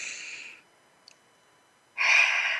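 Two deep, breathy rushes of air during a guided relaxation exercise: one long inhale or exhale at the start, then near silence with a tiny tick, then a second strong, airy breath at the end.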